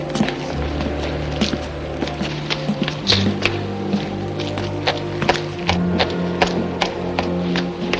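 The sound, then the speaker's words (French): Footsteps walking quickly, a rapid and fairly even series of light taps and thuds over a low, sustained musical drone. “Continue à marcher, mais plus vite.”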